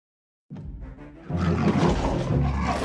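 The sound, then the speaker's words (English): A T-Rex roar sound effect in a children's dinosaur story: a deep, rough, growling roar that starts after a brief silence, swells louder partway through and holds to the end. “Rex, with mighty teeth and strong legs. Nothing is safe! Roar!”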